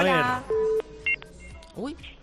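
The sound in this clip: Telephone dialing tones as a call is placed: a couple of short, steady electronic beeps follow a voice, with talk resuming toward the end.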